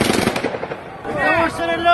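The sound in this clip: Gunfire and stun grenades go off as troops confront a crowd of townspeople at a street protest in Slavutych. A rapid cluster of sharp bangs fills the first second, followed by loud, raised voices.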